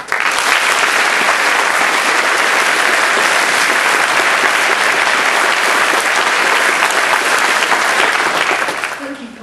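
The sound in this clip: Applause welcoming a speaker at a socialist trade union gathering. Dense, loud clapping holds steady for several seconds, then tapers off quickly at the end.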